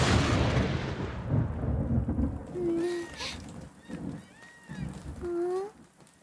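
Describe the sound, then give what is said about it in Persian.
Light rain patters under heavy rolling thunder that is loudest at the start and then eases, with a few brief tonal honks and a voice breaking in. “نگران نباش ویفو، فقط یکم نم بارونه، احتمالا قطع بشه.”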